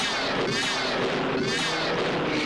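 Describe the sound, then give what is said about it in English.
A sci-fi disintegrator weapon overloads and destroys itself from power feedback, giving a loud, continuous crackling roar with warbling, wavering electronic tones woven through it, holding steady throughout. “She's causing a power feedback. The disintegrator's destroying itself.”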